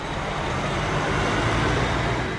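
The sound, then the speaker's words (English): Heavy diesel rumble and steady road noise from big tractor trailers at a truck stop just off Interstate 35, where the rigs pull in to fuel up. It is a continuous, even wash of engine and traffic sound with no voices. “At Love's Travel Stop just off I-35, big tractor trailers fuel up.”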